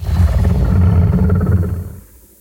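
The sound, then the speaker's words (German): A dinosaur roar sound effect made for a film: a loud, rough, low growling roar held for about two seconds before dropping away quickly to near silence. “Und zwar haben wir ja in den Jurassic Jelena-Film diese Dinosauriergeräusche eingebaut. Und das würde ich dir auch einfach nochmal vorspielen, dass du so ein bisschen weißt, worum es geht. Und zwar dieses Geräusch hier.”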